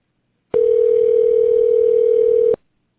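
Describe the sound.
Telephone ringback tone while a call connects: one steady, single-pitched two-second tone that starts and stops abruptly, loud and alone.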